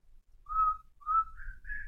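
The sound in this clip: A person whistles a song's tune in four sustained notes, and the last two notes are higher than the first two. The whistling is fairly faint and plays alone, with no talk.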